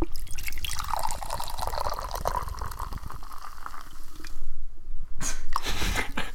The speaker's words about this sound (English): Crack open this tropical lime. Crack open the cold one. Oh, that's a good pour.